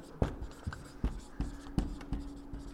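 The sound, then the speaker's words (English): Hurried, sloppy handwriting: a quick run of about seven short, scratchy pen strokes in an uneven rhythm, faint and dry, with brief pauses between them. “Number two, boy, I'm sloppy writing, aren't I? I'm trying to hurry.”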